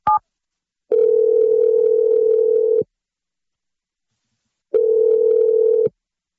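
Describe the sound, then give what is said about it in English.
A telephone is dialed and rings on the line: a short electronic beep, then two long, steady ringing tones separated by a stretch of silence, loud and even in pitch. “I'm dialing the number right now. Here we go.”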